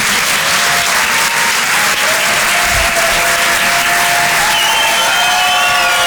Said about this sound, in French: Faites du bruit, s'il vous plaît, pour Arnaud Demanche.